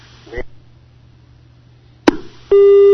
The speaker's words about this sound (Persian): بله تلفن قطع شد.